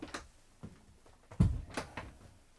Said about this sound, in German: Ich mache die Tür zu.